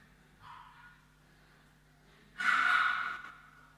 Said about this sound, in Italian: Inspiro.